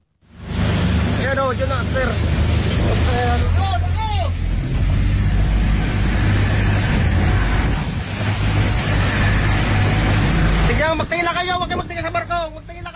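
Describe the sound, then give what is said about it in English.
A Coast Guard boat approaches a burning passenger ferry at sea in the Philippines during strong winds. A loud, steady roar of engine, wind and rushing water runs throughout, with voices calling out over it. “Here's the sound of the Coast Guard approaching the burning ship.”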